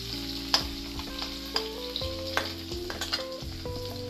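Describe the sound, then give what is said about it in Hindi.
Garlic, ginger and green chili frying in a pan give a steady, bright hiss. Sharp clinks and scrapes from stirring cut through the sizzle every so often. “पूरा हल्का भूनना है”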